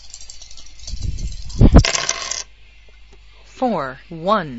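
Dice rattle in a computer Yahtzee game. A gritty, noisy clatter builds to a single loud burst of about a second, then gives way to a faint hiss.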